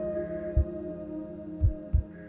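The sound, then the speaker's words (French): Heartbeat thumps, three dull, low beats spaced unevenly, sounding over a steady droning hum. “Tu les entends, mes battements de cœur? Sont-ils si différents des tiens?”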